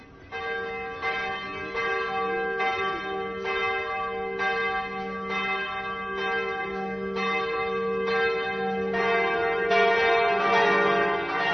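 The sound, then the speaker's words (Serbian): Church bells of a cathedral in Banja Luka ring out at midnight to welcome Christmas, with many steady, evenly spaced metallic strikes that build into a fuller, louder peal toward the end. “Tačno u ponoć zvona hrama Hrista Spasitelja simbolično su oglasila dolazak najradosnijeg praznika Božića.”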